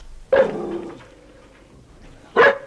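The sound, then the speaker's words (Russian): A dog barks twice: a sharp bark trailing into a drawn-out tonal whine, then about two seconds of quiet before a second short, sharp bark, with no talk. “Очень хорошая собака. Такая с виду умная, симпатичная.”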